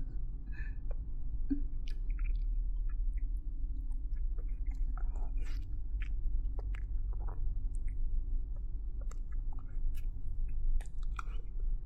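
Someone chews fried chicken cutlet, with steady close, moist chewing and soft crunching and squishing bites continuing throughout over a low background hum, with no talk.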